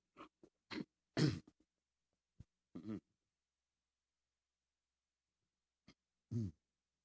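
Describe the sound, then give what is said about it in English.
Throat clearing comes in short, rough bursts: a quick cluster of rasping clears and coughs, then a couple more, a long pause and two final clears. “Excuse me, I got something caught in my throat.”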